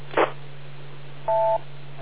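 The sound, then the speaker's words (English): DTMF beep tones are sent over amateur radio: a brief click-like burst, then a steady dual-tone beep lasting about a third of a second, both above a constant low hum. “Okay, K2RND, and we have the beep tones going through there.”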